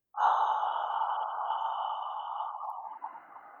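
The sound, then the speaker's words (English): Ujjayi throat breathing as a whispered open-mouth AH: a single long, steady, breathy exhale with a hissing, airy tone that holds for about three seconds and then thins out at the end. “it's Ujjayi breathing, but it's that throat breathing. But if you create the AH sound, and just this time, just have the mouth open. So take a deep breath in, make it a whisper.”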